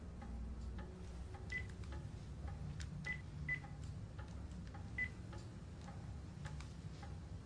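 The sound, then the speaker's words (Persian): A telephone number is dialed, heard as a series of faint, short touch-tone beeps at irregular intervals over a low steady hum with light ticking. “بذار پاشو خط بگیرم به زنگ بزنم”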